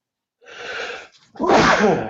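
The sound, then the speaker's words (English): A single loud sneeze follows a short breathy intake of air, heard on its own with no talk. “sweet sneeze.”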